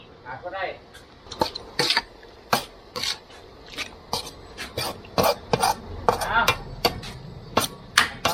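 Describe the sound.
Lid being put on a cooking pot amid cookware clatter: many sharp, irregular metallic clanks and knocks with some scraping, fairly loud against a low background.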